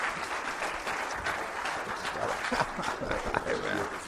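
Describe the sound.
Audience applause welcoming a speaker to the front at a church gathering: steady, dense clapping from many hands at a moderate level, continuing evenly throughout.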